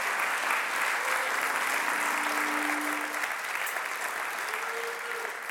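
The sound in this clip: Audience applause greeting a woman invited up to speak at a Heartland gathering. The clapping is steady and full throughout, easing off slightly toward the end.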